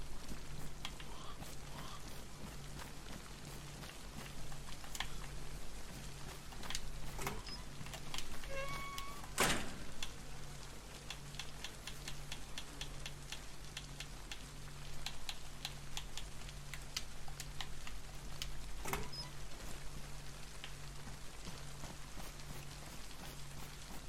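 A cat meows faintly once or a few times over a steady pattering, rain-like background with a low hum.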